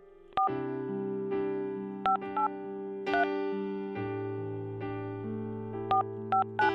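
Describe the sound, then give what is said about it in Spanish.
Touch-tone telephone keypad beeps as a number is dialed, several short two-tone chirps in uneven bursts, a couple in quick pairs, heard over sustained, steady musical chords. “Déjame le marco yo a ver si me contesta.”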